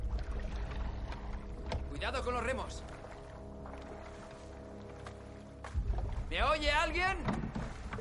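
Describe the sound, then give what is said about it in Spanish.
A rowed lifeboat moves slowly through icy water among shipwreck victims at night, a low watery rumble beneath, while voices call out twice. “El oficial se acerca con un bote que ha logrado vaciar.”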